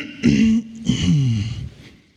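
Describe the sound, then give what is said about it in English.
A man's voice imitates a throat clearing in two gruff, voiced bursts, the second longer and falling in pitch before fading out. “You ever get the throat clear of the Holy Spirit? Do you ever get that?”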